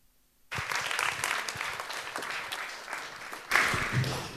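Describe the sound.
Audience applause for a speaker after her talk about the EU begins abruptly after a brief silence, then rolls on as a dense, steady clatter of many hands that swells louder near the end.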